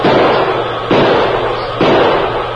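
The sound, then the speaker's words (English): Gunshots from a heavy six-gun revolver fired by a man lost in a storm: three loud, evenly spaced blasts, each trailing into a long rumbling roar before the next. “Desperately, he pulled the heavy six-gun from under his mackinaw and began firing.”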